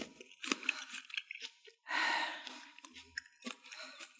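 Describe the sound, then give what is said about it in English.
Someone eating with crunchy chewing: a series of moist crunches and bites at an uneven rhythm, broken by a brief breathy sound midway, all fairly quiet. “What are you doing over there? I'm just eating.”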